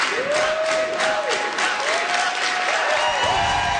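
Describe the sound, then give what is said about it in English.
A crowd of campaign supporters chants a candidate's name at a party launch in Montreal's Old Port, a sung two-note call repeated several times over a steady bed of applause. “As spokesperson Ruba Gazal took to the mic, she was welcomed by a team full of candidates standing behind her, chanting her name, Ruba.”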